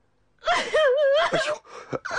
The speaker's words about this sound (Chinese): 我求你了，你别哭了，别哭了好吗？